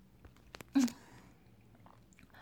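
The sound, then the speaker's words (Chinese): Faint, wet chewing of cold jelly just taken from the fridge: a few soft clicks, then one louder squelch, followed by quiet mouth noises. “我从冰箱刚拿出来的，现在嘴里含着果冻”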